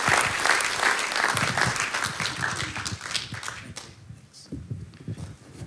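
Church audience applauding to welcome a preacher to the pulpit, a dense, loud wash of clapping that holds steady for several seconds before thinning out.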